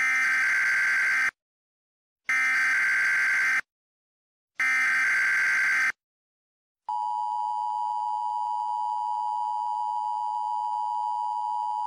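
AMBER child abduction emergency alert tone: three short bursts of harsh digital data noise separated by silences, followed by a loud, steady, piercing electronic tone held unbroken until the end.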